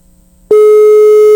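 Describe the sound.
An outgoing telephone call's ringback tone: one steady, loud electronic tone cuts in partway through and holds unbroken to the end, after a quiet start.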